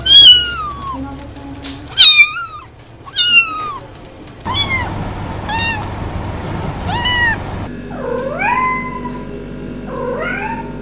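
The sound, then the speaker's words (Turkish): Cats meow in several separate recordings joined one after another. Many loud, high, drawn-out meows rise and fall in pitch, some in quick runs and others spaced apart, heard alone without talk. “Yanlış duymadınız. Kayıt stüdyosunda kedi yok. Kediler bugünkü programın onur konuğu.”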